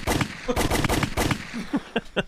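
Gunshot sound effects for a hunting shot ring out as a rapid string of loud, sharp bangs that thin out into a few fainter cracks.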